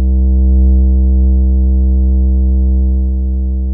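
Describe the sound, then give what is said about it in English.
A synthesizer oscillator, an LFO pushed up to audio rate, gives a loud, steady, low buzzy drone rich in harmonics that holds one pitch and eases off slightly near the end. “All right, so that's one oscillator. That's the other.”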